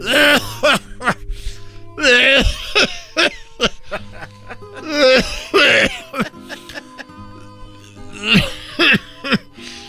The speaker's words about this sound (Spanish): Estás tosiendo como el brujo mayor, querido hermano.